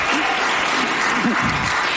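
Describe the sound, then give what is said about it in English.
Audience applause fills the moment: dense, steady clapping that holds at an even loudness for two seconds, with a voice briefly rising faintly beneath it. “you can clap for that.”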